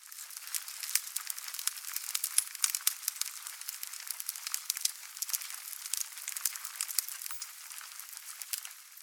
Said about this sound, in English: So here's the very first one, wood fire, and everything's been rolled off or cut below 1500 hertz.